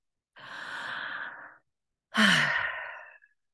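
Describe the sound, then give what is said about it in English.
A deep breath, taken as a calming pause: a long, soft, airy inhale, then a brief silence and a stronger, sigh-like exhale that tapers off, with no talk. “So let's just take a deep breath together.”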